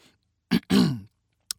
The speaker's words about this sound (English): He cleared his throat.